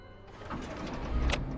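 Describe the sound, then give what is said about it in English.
A car engine starting, a low rumble building up after a brief quiet moment and swelling steadily, with a short sharp burst near the end. “Start the car. Come on. Huh? Start it. Come on.”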